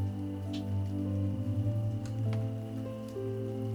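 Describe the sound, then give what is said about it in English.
Gentle raindrops patter on a surface in a steady soft wash over a sustained low tonal drone, with a few slightly brighter drop hits standing out at moderate, even loudness. “Gradually, the raindrops become just a little louder,”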